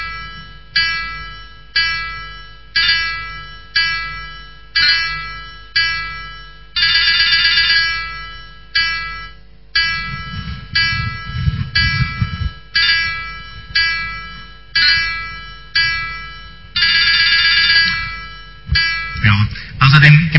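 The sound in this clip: Synthesized melody played back with staccato and other ornaments, many short, bright electronic notes in a steady, bouncy rhythm, broken by a few longer held passages, with no other sound.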